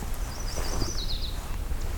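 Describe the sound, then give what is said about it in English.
A yellow-rumped warbler, also called myrtle warbler, sings a thin, high warbling phrase of quick notes, faint against a constant background hiss. “There's the yellow-rump warbler, aka myrtle warbler.”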